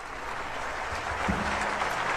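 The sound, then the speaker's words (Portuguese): An audience applauds the Minas Gerais Philharmonic Orchestra in a standing ovation at Sala Minas Gerais, a dense, steady wash of clapping that holds even throughout and swells slightly toward the end. “que recebe os aplausos da plateia, assim como a Orquestra Filarmônica de Minas Gerais, aplaudida agora de pé pelo público presente na Sala Minas Gerais.”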